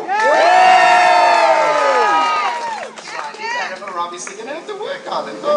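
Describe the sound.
A crowd with children's voices cheers and shouts at a Captain Jack Sparrow pirate show. A long, loud collective yell slides down in pitch after about two seconds, then breaks into scattered shouts and whoops.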